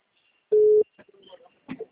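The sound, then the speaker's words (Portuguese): A single short, steady, mid-pitched telephone tone as a call is placed, followed by a few faint, brief sounds. “Gente, eu vou fazer uma ligação aqui.”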